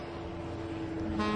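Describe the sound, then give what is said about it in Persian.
A bus approaching along a main road, heard as a steady low engine rumble with a droning hum that grows slightly louder over its short span. “اتوبوس در حال نزدیک شدنه.”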